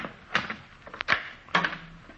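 A door being opened in a rooming house, heard as a few quiet clicks and knocks of handling spaced across a brief moment, with no talk.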